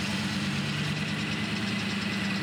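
Car engine idling during a ride, a steady low rumble with a constant hum that holds evenly throughout, with no voices over it.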